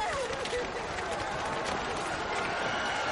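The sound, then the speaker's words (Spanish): A panicked crowd flees through a market as Christians attack Jews and smash merchants' stalls in ancient Rome: a dense, continuous roar of running and agitated voices, with one raised voice briefly rising above the din. “La gente corre a la desbandada.”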